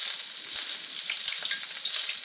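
Rice frying in hot fat in a pan gives a loud, continuous sizzling hiss with fine crackles throughout, and no voices.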